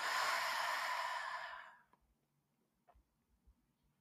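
A deep exhale during a guided breathing exercise: one long, loud, breathy rush of air that holds steady and then fades out in under two seconds. A few faint low thumps follow.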